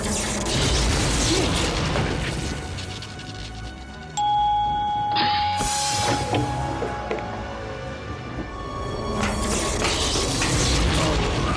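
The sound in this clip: A sci-fi chamber door on a transport orb closes with a grinding, ratcheting mechanism and whirring gears. A sustained ringing tone cuts in partway through, among heavy mechanical clanks, and a loud rush of noise returns at the end.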